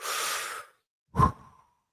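Two deliberate breaths demonstrate a breathing exercise: first a long, airy breath, then after a pause a shorter, voiced sigh of an exhale that tapers off. Both are quiet, with no talk around them.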